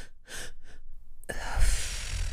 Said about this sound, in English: We can do some of the double in breaths